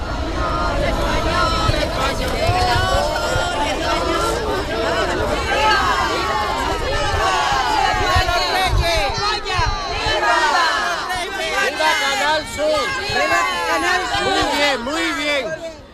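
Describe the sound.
Cheering crowd in Melilla, schoolchildren among them, celebrating the welcome visit of the King and Queen: a loud, dense mass of overlapping voices with shouts rising above the sustained hubbub throughout.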